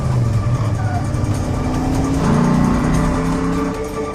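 A car engine accelerates hard during a getaway, with a loud continuous rumble whose pitch climbs partway through before settling into a higher, strained drone.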